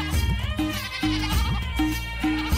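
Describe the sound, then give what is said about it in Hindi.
Goats bleating as a ten- or eleven-year-old child chases them: several wavering, nasal bleats overlap and repeat over a low, steady background rumble. “10-11 साल का एक बच्चा बकरियों को दौड़ा रहा है”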